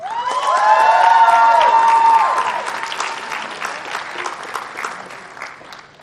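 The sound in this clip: An audience at a university event applauds to welcome a speaker: loud clapping mixed with whoops and cheering at first, then easing into quieter, thinning applause.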